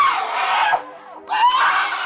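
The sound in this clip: A woman screams in two long, loud, high-pitched cries separated by a brief gap, the voice strained and wavering throughout.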